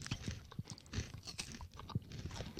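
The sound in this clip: Crunchy chewing of a chocolate and caramel snack, with many quick crisp bites and mouth sounds in an uneven rhythm, fairly quiet and without talk.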